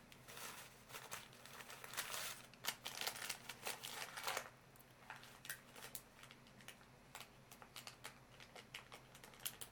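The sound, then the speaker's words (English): A pen moves over paper in a run of faint, scratchy strokes and taps, irregular in rhythm and quiet throughout, with no voices. “I'm just pretending to write. So that was the writing one.”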